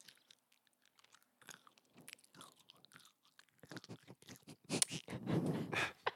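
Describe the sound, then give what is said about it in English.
A woman chews with her mouth open, making a string of wet, smacking, slightly crunchy bites. The chewing is quiet and sparse at first, then grows louder and busier toward the end. “That was a woman chewing”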